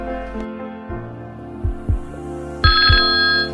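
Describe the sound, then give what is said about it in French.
A telephone ring comes in near the end over a low, droning hum, preceded by pairs of soft, heartbeat-like thuds that keep pulsing beneath the brighter ringing tone. “Il appelle Paul, en qui il voit un ami et surtout un confident.”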